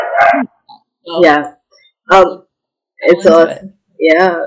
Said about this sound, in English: if you guys hear a lot of dogs barking, that's just my puppies having fun being jealous about the love that they're receiving